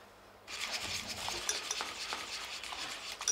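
Chocolate glaze poured over a freshly baked cake: a soft, continuous wet rasping and trickling that starts after a brief quiet moment and runs steadily at low volume, with no talk.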